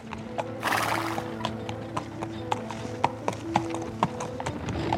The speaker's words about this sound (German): Und nachdem er sein Fahrgeld eingesteckt hatte, wendete er das Pferd und fuhr rasch dem Fluss zu.